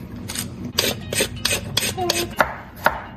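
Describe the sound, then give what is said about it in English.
Peeling a carrot: a rapid series of short, rasping scrapes, fairly faint, with a few sharper strokes near the end. “While you do that, I'm going to peel the carrot, okay?”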